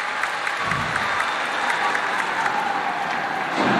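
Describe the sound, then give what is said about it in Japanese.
Stadium crowd applause greets a substitute entering a professional football match involving Kofu. The clapping is sustained and even, with a broad crowd murmur, and swells slightly at the very end. “さあまあ小出が来た時にはやっぱりね、さすがに拍手が送られていました。”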